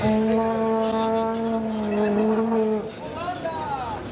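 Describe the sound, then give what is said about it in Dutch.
A blue-and-white plastic horn blown by an Argentina football fan in Qatar gives a long, steady, buzzing blare, then a shorter wavering toot over a noisy background. “Iemand blaast op een blauw-witte toeter in de kleuren van de vlag van Argentinië.”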